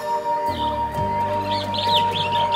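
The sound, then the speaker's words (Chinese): Sparrows let out of an opened birdcage chirp in a few quick, high calls that grow busier toward the end, heard over a steady background drone and low hum. “慢慢咁行去后院里边，打开咗个雀笼。将100只麻雀通通咁放走咗”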